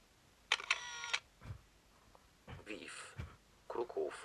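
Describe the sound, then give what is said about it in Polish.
A camera taking a photo gives a short, loud mechanical whirring burst near the start. Fainter clicks and rustles follow, and people talk in the later part. “Robię zdjęcie.”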